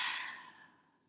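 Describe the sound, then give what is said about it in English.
An open-mouth exhale after a deep nasal inhale, heard as a single faint, airy sigh that starts strongest and fades away over about a second, with no voices. “Deep inhale through your nose. Open mouth exhale.”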